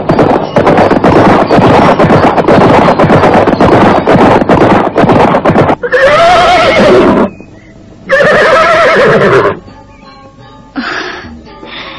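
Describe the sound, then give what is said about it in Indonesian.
Horses running across a meadow in the morning: a long, dense stretch of rapid, loud pounding hoofbeats, followed by several shrill, wavering neighs separated by brief quieter gaps. “Nampak dua ekor kuda berlari berkejaran membelah padang.”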